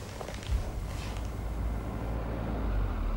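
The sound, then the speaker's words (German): A car drives up, its faint, low engine and road rumble growing gradually louder and broader as it nears. “Sie hörten einen Wagen herankommen.”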